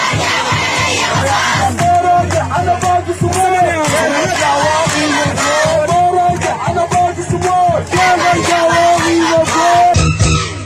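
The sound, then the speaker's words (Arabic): Protesters at a street demonstration in Khartoum, Sudan, chanting slogans: loud massed voices calling in rhythmic unison, continuous and energetic, with the chant rising and falling in repeated phrases. “وردد المتظاهرون هتافات متنوعة في هذا الخصوص.”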